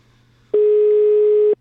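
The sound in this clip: Telephone ringback tone on a call waiting to be answered: a single steady, mid-pitched tone of about one second that starts abruptly after a faint low hum and cuts off cleanly.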